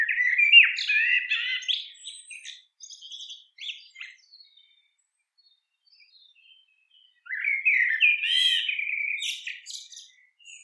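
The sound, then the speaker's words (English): A blackbird sings in varied, warbling phrases. A bright burst trails off into shorter fragments, then a few seconds of silence, then another lively phrase. “The blackbird pauses, as much as it sings,”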